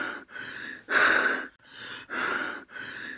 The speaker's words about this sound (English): This may be characterized by a sound of gasping when the child inspires,